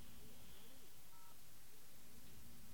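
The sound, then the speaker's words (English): Telephone keypad tone for the 0 key on an AT&T phone line, a short dual-pitched beep that is faint and partly buried in heavy hiss. “I'm going to press 0 and see what happens.”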